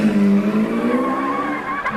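Tires squeal in a long, tonal screech as a stolen car starts and speeds off, its engine droning beneath the skid for about two seconds with no talk.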